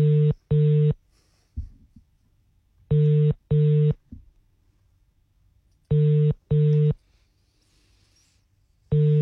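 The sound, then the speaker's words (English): A telephone call ringing out: three paired rings of a steady mid-pitched tone, each pair a quick double burst followed by a pause, and a fourth ring starting at the end. No talk. “I'm going to call this person.”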